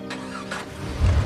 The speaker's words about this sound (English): the truck drives away